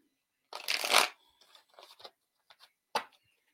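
Playing cards being shuffled before a card is drawn: one long, loud riffling burst, then a few shorter rustles and a final sharp snap of the deck, with no talk.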